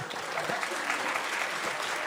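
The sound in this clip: An audience breaks into dense, even applause, with steady clapping holding at a constant level for the whole stretch.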